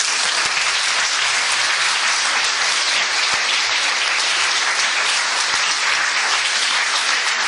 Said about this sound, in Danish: Tusind tak til vores ekspertpanel, og jeg synes, vi skal give dem en stor hånd.